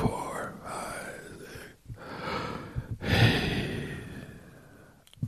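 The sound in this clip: Slow, controlled breathing in a guided breathing exercise, a few long, airy breaths with soft hissing exhales separated by brief pauses, steady and unhurried with no words spoken.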